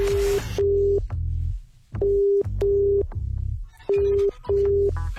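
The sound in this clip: A telephone ringing tone sounds while a call is being placed: three double pulses of a steady mid-pitched tone, each pair followed by a short pause, with no talk over it.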